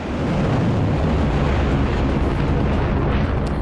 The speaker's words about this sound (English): the Jordanian military says its forces have intercepted around 20 Iranian missiles that were fired at the country. And this footage is of those missiles seen from the Jordanian side.